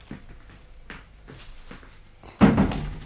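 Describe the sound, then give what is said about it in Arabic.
A door is shut with a single solid thud near the end, preceded by faint scattered rustles and small knocks. “أبويا، اقفل الباب علينا يا نجم الدين.”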